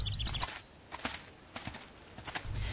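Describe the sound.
Donkey hooves clip-clop in a slow, uneven walk, sounding as a game voice-over effect: a few sharp, spaced knocks over a low rumble.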